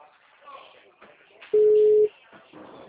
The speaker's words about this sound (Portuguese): vou fazer uma ligação. Gente, caiu de novo a ligação.